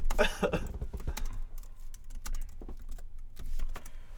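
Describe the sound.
Typing on a computer keyboard while looking up merch online: irregular, fairly quiet key clicks tapping out in uneven bursts.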